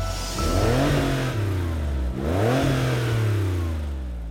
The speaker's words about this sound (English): The Porsche 911 Carrera.